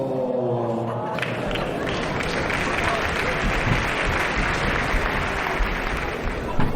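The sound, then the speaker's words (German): Crowd commotion at a choir event featuring blind and visually impaired singers: many overlapping voices mix with some clapping in a steady, busy din, and one voice stands out clearly at the start. “Wie du hörst, ist hier ein riesen Durcheinander. Auch mit einer Absprache vorher ist hier kaum durchzukommen.”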